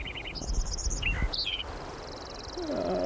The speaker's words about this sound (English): The good sparrow number 3 continued with the roll-off filter off.